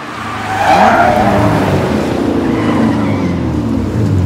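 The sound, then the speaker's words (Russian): A black two-seat car rushes toward a building and tears past, its engine roaring loudly and continuously with a screeching, skidding edge. “Стив замечает несущийся к зданию автомобиль. Прищуривается, тот уже у входа.”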